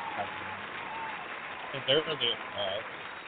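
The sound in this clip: Studio audience applause welcoming a guest onto a talk show: a steady wash of clapping runs throughout, with a few brief voices rising over it near the end.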